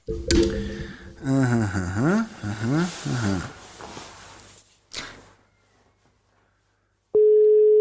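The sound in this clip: A steady mid-pitched telephone tone from an outgoing call that goes unanswered, placed through a Rodecaster Pro mixer, starts loud and sustained near the end after people talk, with a quiet gap between.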